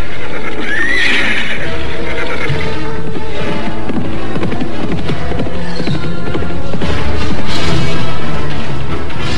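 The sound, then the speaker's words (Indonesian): A white horse neighs over the steady clatter of its hooves. A shrill whinny near the start rises above loud, continuous clopping that runs through the whole clip. “Loh Barda kemudian memerintahkan Somar untuk mengambil kuda putih yang ternyata adalah si Tunggul untuk tunggangan Anting Wulan”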